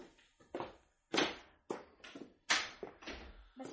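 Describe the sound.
A door being opened in a drama scene, heard as several irregular thumps and clunks, each with a sharp onset that quickly fades, with no voices.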